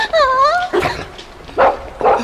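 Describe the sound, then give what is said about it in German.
Puppies whimper and yip in a secret passage: a high, wavering whine opens, followed by a few sharp, short yips at uneven gaps. “Das sind ja Welpen! Oh. Die sind ja niedlich. Und so klein.”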